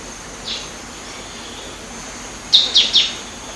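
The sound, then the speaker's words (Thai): Green-tailed sunbird calling on Doi Inthanon: a faint single chirp comes first, then later three quick, high, thin chirps in a tight run over a steady background hiss. “นกกินปลีหางยาวเขียวเปรียบเสมือนอัญมณีบนดอยอินทนนท์ที่จะกระโดดอวดสีสวยไปมาตามดอกไม้เพื่อกิน”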